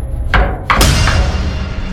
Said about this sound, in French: On frappe à la porte.